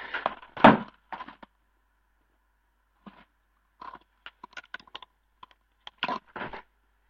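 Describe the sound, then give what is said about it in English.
A tape measure strikes a microphone with one loud, sharp knock near the start, followed by a scattering of lighter clicks and taps amid silence. “Sorry, did you hear that? I just hit the microphone with the tape measure.”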